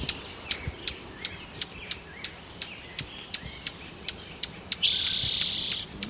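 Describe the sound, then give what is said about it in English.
Junco birds call near a nest with a steady series of many short, sharp, high-pitched chip notes at a regular rhythm, followed by a louder, buzzy, high trill lasting about a second. “Must be near a junco nest.”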